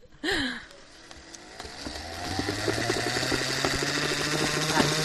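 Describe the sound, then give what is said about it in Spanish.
A loud machine motor in a cord and trimmings shop, likened to a spinning wheel. A sharp onset leads into a whirring, rattling drone that steadily builds and grows louder to the end. “El sonido de un motor que... Bueno, es que parece que va a salir despegando, ¿eh?”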